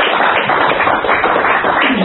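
A church audience applauds to praise the Lord with loud, dense clapping. The crackling claps blend into a continuous roar that holds steady throughout.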